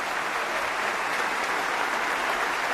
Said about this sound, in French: acclamée par le public de l'Opéra Berlioz de Montpellier pour le concerto pour violon sol mineur de Max Bruch